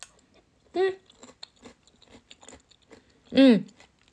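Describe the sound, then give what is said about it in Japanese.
Soft chewing of carrot in curry, faint moist clicks and small crunches, broken by two short hummed vocal sounds. “人参もしっかり人参の味がして美味しいです。やっぱり美味しいな、カレーよかった”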